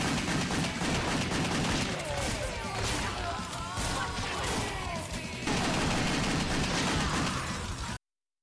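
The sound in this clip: Rapid dual-pistol gunfire from the action video game Wet, one pistol in each hand, rattling out as a dense, continuous barrage of sharp loud shots with no clear pauses from start to end.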